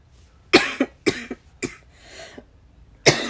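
A person coughs hard with something caught in the throat, a series of sharp, uneven coughs with throat clearing, loud and close against a quiet background.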